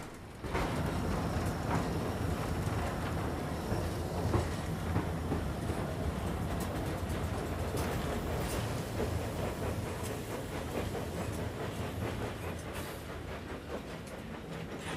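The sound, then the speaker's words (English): A steam train works up a 1-in-100 gradient on the climb toward Bewdley Tunnel, giving a loud, continuous mechanical rumble with dense rhythmic clatter that begins after a brief quiet moment and runs for about fifteen seconds. “As the train chugs over a road, Roger gives a few sharp tugs on the regulator.”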